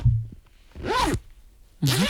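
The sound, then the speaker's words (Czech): A zipper is pulled in two brisk, rasping strokes, each about half a second long, with a short quiet pause between them and a brief low sound just before the first. “Je to zip. A je to zip.”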